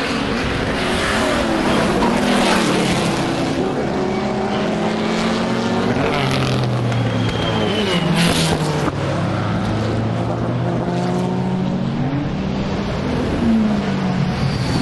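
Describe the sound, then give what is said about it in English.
Classic Le Mans racing cars, a D-Type and an Aston, roar past at racing speed. Their engines hold a loud, sustained drone with sweeping pitch changes as each one goes by. “Let's see them race next time they come round. The Le Mans legends are coming round again, at racing speed this time.”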